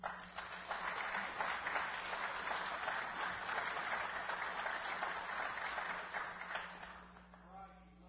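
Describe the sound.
An audience applauds to welcome a guest speaker. The clapping is dense and sustained for several seconds, then tapers off and grows fainter near the end.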